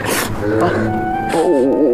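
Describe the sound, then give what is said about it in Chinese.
Someone crying after being hurt, with sobbing, wailing tones whose pitch wavers and shakes, loudest toward the end. “我说要不要去医院看看？不，咱不哭了”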